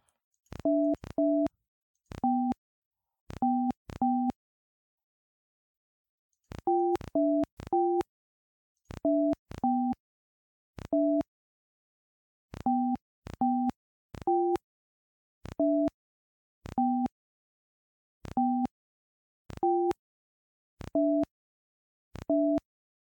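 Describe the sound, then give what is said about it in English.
Telephone keypad tones while dialing an international number: many short electronic two-tone beeps in irregular clusters separated by brief pauses, shifting slightly in pitch from beep to beep, with no talking. “It's my first time dialing out of the country.”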